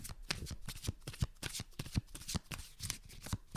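Playing cards being shuffled by hand, many quick papery flutters and snaps following one another in an uneven rhythm, fairly quiet and with no talk.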